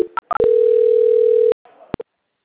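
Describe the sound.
A telephone tone plays while a call is being transferred: a few short electronic blips lead into one long, steady, mid-pitched tone lasting about a second, followed by a brief muffled sound and a final short blip.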